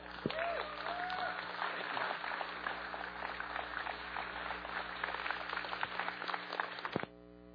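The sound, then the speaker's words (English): Audience applause welcoming a guest speaker at a Bethel-linked chapel gathering, with people on their feet: dense, steady clapping that holds for about seven seconds, then cuts off abruptly. “Why don't you guys just rise to your feet and give him a warm welcome.”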